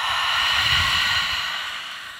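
A slow exhale during a yoga stretch as the body folds forward and down, heard as a long, steady airy hiss that tapers off softly at the end.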